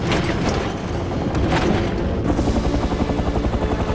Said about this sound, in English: The helicopter's taillight flashes as it approaches a ship.